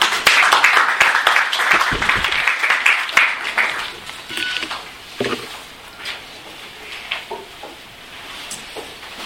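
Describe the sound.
Applause welcomes three speakers to the Crawford School, a dense burst of many hands clapping that starts loud, then thins into scattered claps and fades away.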